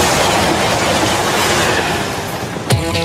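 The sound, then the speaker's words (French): TGV high-speed train rushing past, a loud, dense, steady roar with rumbling rail noise throughout, easing slightly before a brief sharp clatter near the end. “Quant à mon Jeff, il est devenu maire. Le TGV, il va enfin s'arrêter.”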